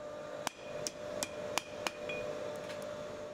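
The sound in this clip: A hammer strikes an anvil in a family-run blacksmith's workshop: five sharp, ringing blows at an even pace, then a few lighter, quicker taps, all over a faint steady background hum.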